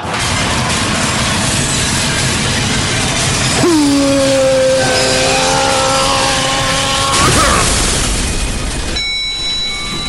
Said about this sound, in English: Jeez, you'd think they'd spring for an oil can or something. Oh, my mistake. The boss left the parking brake on.